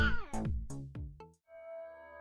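A cat meows a few times, each call sliding down in pitch, followed by a steady, sustained ringing tone.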